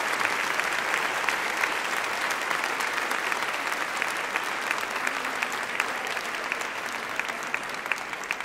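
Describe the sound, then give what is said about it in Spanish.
An audience in Puebla applauds a priest being introduced at a conference, with sustained, dense clapping of even loudness throughout and no voices over it. “Padre Ángel Espinosa de los Monteros, que oiga el aplauso, ¿verdad? Ahí está.”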